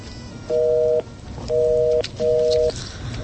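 A phone line tone plays after a disconnected call: three short, steady, evenly spaced beeps over a hissy, noisy line.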